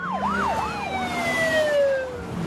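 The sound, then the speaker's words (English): Several police sirens as a line of police cars arrives at a pier: loud wailing cycles rise and fall quickly, while other long steady tones glide slowly downward beneath them. “A line of police cars arrive at the pier.”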